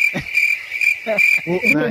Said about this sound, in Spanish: aquí yo pondría sonar los grillos. O los coquí.